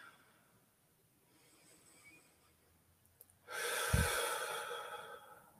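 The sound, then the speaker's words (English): A single deep breath rises out of near silence as a long, loud, airy rush, with a brief low snort-like burst near its peak, then fades away. “as you take it in just in a few deep breaths”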